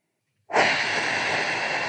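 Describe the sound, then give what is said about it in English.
Forceful exhale blown through pursed lips, starting abruptly after a moment of silence and holding as a loud, steady, breathy hiss until the end, with no talk. “If you just blow through pursed lips and put your finger in your belly button, you'll feel your transverse abdominals will fire.”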